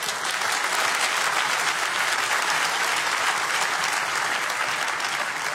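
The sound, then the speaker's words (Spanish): Congregation applause during a church sermon, a steady, even wash of many hands clapping that holds at a constant level throughout. “Dale un aplauso a Jesús.”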